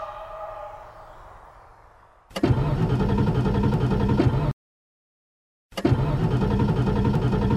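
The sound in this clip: An old car, the Caraviale, sputters and acts up: a fading low rumble gives way to two loud bursts of rough, coarse engine noise, split by an abrupt dead stop.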